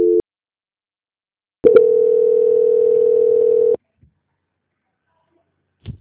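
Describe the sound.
Telephone line tone during a call transfer: a brief buzz, a pause, then one long steady buzzing tone of about two seconds, followed by near silence and a faint click.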